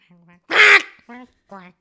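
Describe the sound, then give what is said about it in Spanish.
A voice imitates a duckling walking and then tripping over a broom on the floor: a short nasal quack, a loud raspy burst, then two more brief quacks. “No, trata, trata de hacer ahora un patito caminando, pero se tropieza con un, con un, con un palo de escoba que en el piso.”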